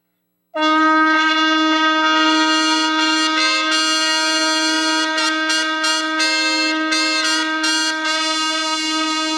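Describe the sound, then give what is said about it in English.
Shofar and silver trumpet sounded together: a loud, brassy sustained chord that starts abruptly and holds for about nine seconds, one tone steady while the other flutters in short bursts. “He has a trumpet made of silver. Silver trumpets were also something that was blown in the Bible. And so now we're going to blow them together. We're going to blow the shofar and the silver trumpet and see how they sound together.”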